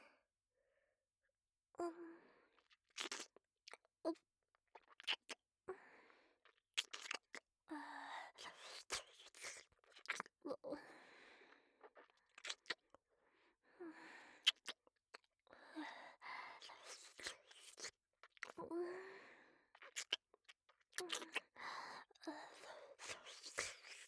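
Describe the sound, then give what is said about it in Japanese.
Wet tongue-licking and mouth sounds for ear-cleaning ASMR: soft, irregular smacks, clicks and slurps in short bursts separated by brief silences, intimate and quiet. “本日も舌を使ってしっかりお掃除しますね。”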